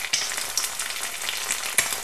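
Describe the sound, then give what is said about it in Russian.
Dough balls fry in hot oil in small batches, giving a steady, dense crackling sizzle with a few sharper pops, no speech. “Аккуратно опускайте шарики теста в масло партиями по 4 штуки и обжаривайте по 2 минуты на каждой стороне.”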